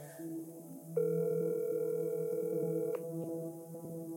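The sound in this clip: A telephone ringing tone heard while calling someone: one steady electronic tone lasting about two seconds, then cutting off, over a faint low background hum.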